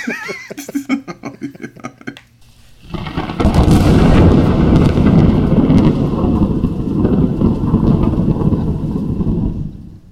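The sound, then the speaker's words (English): Thunder-and-lightning sound effect: after a short quieter opening, a sudden loud crash swells into a long, heavy rolling rumble that lasts several seconds before easing off at the end. “And don't forget to shoot Andy in the face with lightning.”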